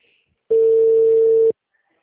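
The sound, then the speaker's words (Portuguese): A single steady telephone ringback tone heard while a call is placed: a clean, mid-pitched hum lasting about one second, with silence before and after. “Tá chamando.”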